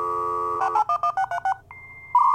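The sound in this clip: A 56K dial-up modem dials out. A steady dial tone gives way to a quick run of clipped touch-tone digits, then a brief drop and a thin sustained tone. A louder modem tone starts at the end.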